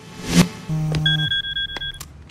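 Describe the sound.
A phone rings with an incoming call from a supplement company's CEO, sounding as a loud electronic ring of rapid, high-pitched repeated beeps. A brief thump and a low hum come just before the ringing.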